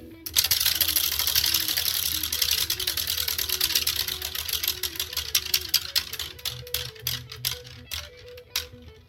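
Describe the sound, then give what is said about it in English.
A prize wheel is spun at a county sheriff's office. Its pointer ticks rapidly against the pegs, then the clicks spread out and slow to a few last ticks as the wheel coasts to a stop. “Wanted Wednesday here at the Escambia County Sheriff's Office, and time to spin the wheel.”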